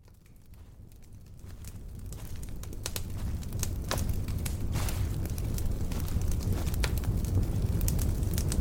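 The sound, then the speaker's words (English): A fire burning, starting faint and swelling into a steady rushing roar peppered with many small crackles and pops, with no voices. “Welcome, listener. I'm glad you're here. Take a seat next to the fire.”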